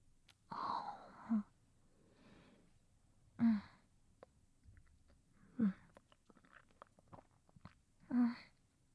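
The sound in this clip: Chewing and biting sounds from someone eating a sweet dessert: four short, breathy bursts spaced a couple of seconds apart, with faint quiet between them and no talking.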